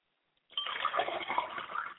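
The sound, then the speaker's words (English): Liquid poured out as a libation at the opening of a Yoruba foundation-story telling: after about half a second of silence, a steady, bright splashing and trickling starts and runs unbroken to the end. “And I say Ashe as I pour this libation.”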